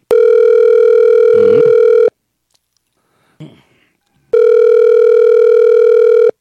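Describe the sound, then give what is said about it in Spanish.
Ringback tone of an unanswered telephone call: two long, steady, buzzy tone bursts of equal length, separated by a quiet pause that holds one brief faint click. “Te hemos estado llamando, pero no tenemos la respuesta por parte de usted”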